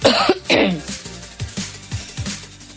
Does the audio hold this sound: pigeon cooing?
no